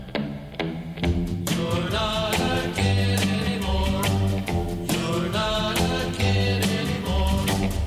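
Instrumental intro of a 1950s pop song, with a steady, even drumbeat, a bouncing bass line and bright chords moving in a regular rhythm, loud and continuous, with no singing yet.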